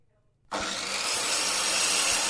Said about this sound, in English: It's a circular saw. It's called a circular saw.